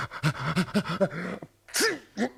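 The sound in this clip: A voice acts out a human sneeze. A quick run of short, breathy, rising catches builds up, then a brief pause, then one loud sharp sneeze and a smaller trailing snort.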